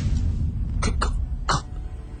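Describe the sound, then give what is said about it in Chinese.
Choking, gurgling throat sounds from a stabbed person whose windpipe has been pierced, heard as three short, harsh cough-like bursts over a low rumble, with no words spoken. “只听见佢喉咙发出一啲好恐怖嘅声音，佢想讲嘢，但系已经讲唔出。”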